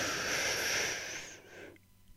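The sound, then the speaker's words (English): A deep inhale, a slow cleansing breath drawn into the lungs, makes a soft airy rush that holds steady for over a second and then fades into near silence. “Draw it into the foundation of your lung. Hold it there for just a few seconds, and then exhale. On the count of three, here we go. One, two, three. Inhale.”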